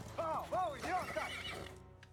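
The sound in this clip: Horses neighing in a film scene: several loud, high, wavering whinnies overlap in quick succession for about two seconds, then stop abruptly.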